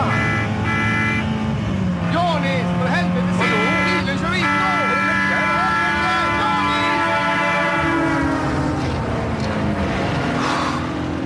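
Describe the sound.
A car chase from a Swedish film in which a gold metallic 164 is pursued: a loud, unbroken engine roar with shifting revving pitch and a horn-like blare, with voices over it.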